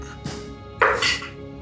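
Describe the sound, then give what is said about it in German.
Dice rolled for a dexterity saving throw in a tabletop role-playing game: a faint thud, then a short, brighter clatter against a quiet background. “Dann, wenn du möchtest, darfst du einen Dexterity-Saving-Throw würfeln.”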